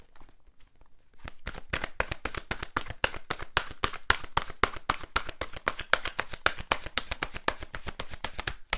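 Oracle cards being shuffled, heard as a long run of rapid, crisp riffling clicks. After a quiet first second the clicks stay loud and dense throughout.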